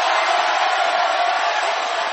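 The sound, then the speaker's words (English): An audience clapping and shouting in a loud, continuous roar of cheers and applause that holds steady throughout. “Thank you for your claps and your shouts.”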